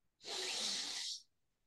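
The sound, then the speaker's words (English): A single inhale through one nostril while the other is held shut with a finger: a steady, airy hiss lasting about a second that starts and stops cleanly, heard alone. “Cover your nostril, and you inhale through the nose.”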